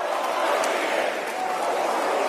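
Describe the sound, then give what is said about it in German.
A crowd at a Trump rally in Suffern, New York chants "four more years," a loud, continuous mass of many voices that holds steady throughout. “aber sein Publikum findet die Idee super. Sie rufen 4 more years, 4 weitere Jahre.”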